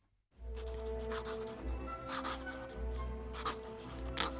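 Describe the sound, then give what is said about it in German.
A quill pen scratches across paper as a boy writes a letter to his best friend. Bursts of rough scratching come and go over a steady tonal background. “er schreibt gerade einen Brief an seinen besten Freund, den Urs.”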